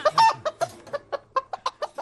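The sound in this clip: A chicken clucks in a rapid series of many short, mid-pitched bursts, one after another, fairly loud and with no other sound.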